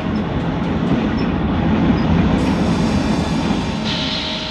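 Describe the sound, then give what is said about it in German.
An express train arriving and stopping at a station: a steady, loud rumble of wheels and carriages, with a thin high tone joining near the end. “Der D-Zug hält in Güllen.”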